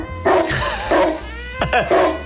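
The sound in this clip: A dog gives a few high, whining yips and barks, loud and harmonic bursts separated by short gaps, over a steady low hum.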